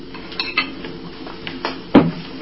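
A plate and cutlery being handled: soft scrapes and light clinks of metal on crockery, ending with one louder clatter near the close.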